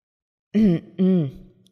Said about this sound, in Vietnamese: Đinh Triệu Huệ đột nhiên ho khan một tiếng